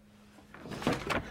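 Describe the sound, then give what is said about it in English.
A glass door is opened by a maid at the top of garden steps. The sound is a few soft, short clatters that grow slightly louder toward the end. “The woman climbs some steps to the garden and stops at the glass door to put her bags down. The maid opens it.”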